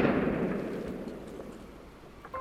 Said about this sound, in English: That's when the shot, the terrible, terrible shot, was loosed from my father's pistol.